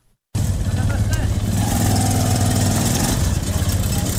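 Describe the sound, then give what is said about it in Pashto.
A Zaranj motorcycle rickshaw engine runs in Kandahar, a loud, steady, buzzing drone that cuts in sharply after a brief silence and holds an even level throughout. “کندهار کې د ټیکسي موټرونو او نورو رکشو سره سره خلکو د زرنج موټر سایکلونو څخه رکشې جوړې کړې او سپرلې وړي راوړي.”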